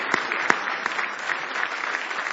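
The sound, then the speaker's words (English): A church audience claps in praise during a morning service, with a burst of loud, irregular handclaps and a few sharper strikes standing out over a steady patter. “Somebody give the Lord a hand clap of praise this morning.”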